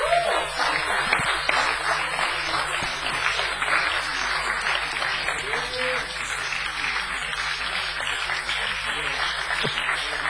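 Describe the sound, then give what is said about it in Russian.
A church audience applauds their pastor, a dense, steady wash of clapping that holds at an even loudness for about ten seconds, with voices mixed into the crowd. “Пастор Аким, церковь, искупайте пастора Акима в аплодисментах.”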